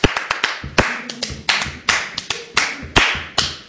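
Rhythmic hand clapping in the Spanish style: many sharp, crisp claps in a steady, driving pattern, with some accented claps louder than others. No voices are heard.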